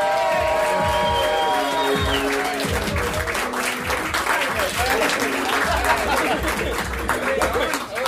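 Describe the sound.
An audience applauds and cheers to welcome comedians on stage, with dense, sustained clapping and scattered whoops. A voice is heard over the opening moments.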